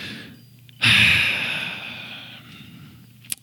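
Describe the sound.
A single deep breath, drawn in sharply and loudly, then fading gradually over about a second, heard alone with no talk, followed later by a brief faint click.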